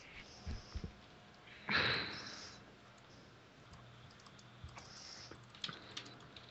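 Computer keyboard typing, a few scattered clicking keystrokes with one louder, denser burst of keys near the middle, then more sparse taps; no talking.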